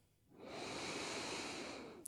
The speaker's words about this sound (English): You'll close out that prompt and we'll take a deep, full breath in.